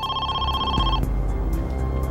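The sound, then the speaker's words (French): A telephone rings with a steady, bright electronic tone that holds for about a second before cutting off into a dense, noisy background. “Peu de temps avant 13h, le téléphone sonna de nouveau.”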